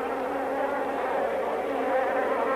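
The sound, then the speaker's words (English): A bee buzzing on a seat at a football game, a steady, continuous, fairly loud drone with a slightly wavering tone, heard alone without voices. “Pan out to a bee surviving on a seat. That bee is alive.”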